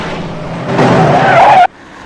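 Tires screech and an engine roars as police cars chase a dented, damaged getaway car under a road bridge. A loud burst swells and then cuts off abruptly, leaving quieter background noise.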